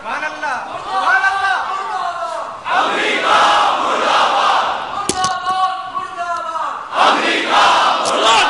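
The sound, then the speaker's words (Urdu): A crowd in Pakistan chants a slogan in unison, many voices rising together in several loud, rhythmic bursts separated by short breaks. “یہ نعرہ تو اب روز لگانے کا ہے، اب تو پورا پاکستان یہی نعرہ لگا رہا ہے”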